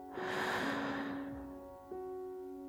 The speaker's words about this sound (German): Noch einmal. Atme tief ein